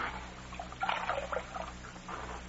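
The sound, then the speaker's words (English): Water poured to wash a bullet wound in a man's chest, a soft, continuous trickling and splashing over a steady low hum. “Let me wash his wound. Take a look at it. I'll wet the scar.”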